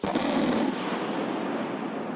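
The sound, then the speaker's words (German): Explosive demolition of an 11,000-tonne, 300-metre chimney at a former lignite power plant: a sudden loud onset gives way to a dense, sustained roar and rumble that stays steady to the end. “Vor den Augen von Schaulustigen wurde das 11.000 Tonnen schwere Industriebauwerk heute gesprengt.”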